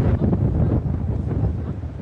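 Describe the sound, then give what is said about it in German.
Strong wind blows across a sandy island beach, a low, roaring buffet with uneven gusts battering the microphone, steady and loud with no talk. “Der Wind ist noch stärker geworden.”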